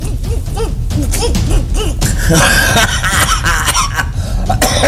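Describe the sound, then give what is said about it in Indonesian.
A person coughs in a few harsh, rough bursts against a dense, busy background. “Batuk euy.”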